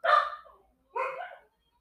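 Dogs barking: two short, sharp barks about a second apart, each loud at onset and then trailing off, with no other sound between them.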